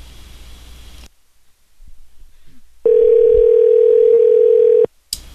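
Telephone dial tone heard while placing a call: one steady, unbroken tone holding for about two seconds after a quiet gap, with brief bursts of noise before and after.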